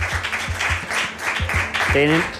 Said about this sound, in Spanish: Pido un aplauso para González Gómez García.